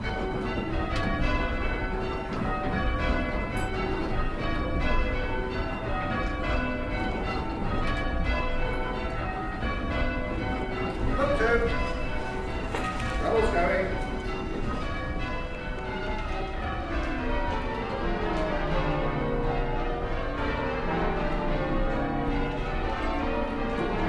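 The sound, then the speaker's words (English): Church bells ring rounds and call changes in a continuous, steady stream of overlapping bell strikes. The bright tones fall in repeating sequences throughout, with no voices. “Right, should we do some rounds of call changes?”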